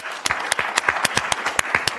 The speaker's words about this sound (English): So your panelists are Tyler Harris, Tim Pecoraro, Charles Russ, and Jonathan Parker. Please help me welcome them to the stage.